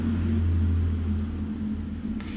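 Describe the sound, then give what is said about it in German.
A large aircraft passes overhead as a deep, steady rumble with a low droning hum that holds throughout, slightly easing toward the end, with no voices. “oh, hier fliegt schon wieder ein dickes Ding rüber.”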